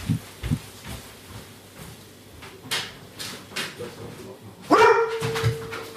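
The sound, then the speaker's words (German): Kira the dog barks by an ember grill, with a few sharp barks early on and a louder, longer bark near the end, over quiet background noise. “Na, was war denn das? Hm? Hast du mich jetzt angebellt? Ja, die Kira, ne, wenn sie manche Geräusche hört, schlägt sie an.”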